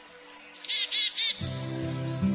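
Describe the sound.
African birds calling with a few high, bright chirps in quick succession. A steady, low-pitched harmonic tone then takes over and continues to the end.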